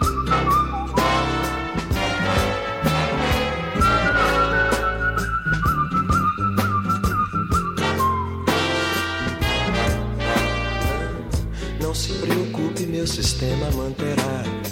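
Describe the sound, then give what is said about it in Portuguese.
A man whistles a clear, steady melody over a full band accompaniment, the whistled line holding long notes above the rhythmic instruments. “Assobia”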